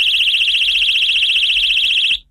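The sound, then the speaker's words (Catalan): A personal safety alarm, set off by pulling its ring, lets out a shrill, high-pitched continuous tone with a fast steady warble for about two seconds, then cuts off abruptly. “Recordeu que és una alarma de seguretat personal i jo ara estiro l'anella.”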